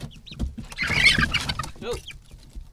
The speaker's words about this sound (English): opens the hatch to a small wooden box. Inside, a flurry of teenage chicks looks up in surprise.